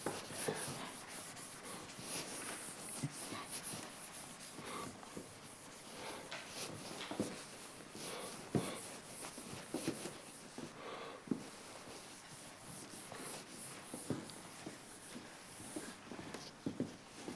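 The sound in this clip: Faint scratching strokes of someone writing out an equation, many short scrapes and taps spread unevenly across a long stretch.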